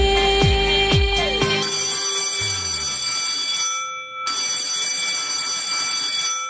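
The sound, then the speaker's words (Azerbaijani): A school bell rings with a steady, piercing electric tone that holds for several seconds, breaks off briefly partway through, then resumes. No voices are heard. “Hə, deyirəm sizə indi bu zəng 11 il eşitdiyiniz zəng kimi adi də gələ bilər.”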